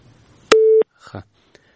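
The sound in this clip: A telephone busy tone sounds after a dropped call: a single loud, steady, mid-pitched beep lasting about a third of a second, standing alone against a quiet background.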